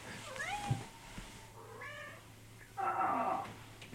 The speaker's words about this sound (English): this is my fat cat. He is just... We picked him up as a stray about 3 winters ago.